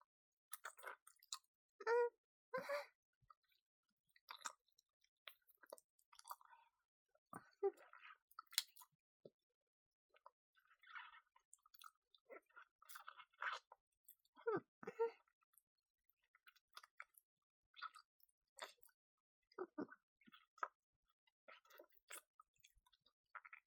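A person eating and chewing food, with many soft, wet smacks and clicks in an irregular rhythm, quiet throughout and without music.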